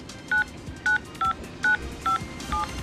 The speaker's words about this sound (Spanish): Ingrese el número del cual desea recuperar el mensaje. Exactamente, ingresa el número de la persona que ha dejado el mensaje. Anteponiendo el código de ciudad.